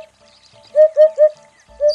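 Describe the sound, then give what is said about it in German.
Hoopoe calling: three soft, hollow, low-pitched hoots in quick even succession, then a fourth beginning the next phrase, with faint higher birdsong in the background. “Der Wiedehopf. Und er kämpft wie andere Vögel um seinen Lebensraum.”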